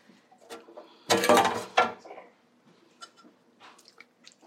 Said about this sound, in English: So pasta from the skillet, from the pot, into your serving bowl, your big pasta bowl, your big noodle bowl.